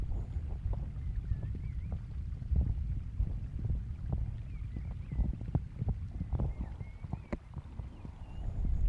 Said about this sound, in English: Even the leaves of my trees seem to rustle more cheerfully in the evening breeze. Can you hear it?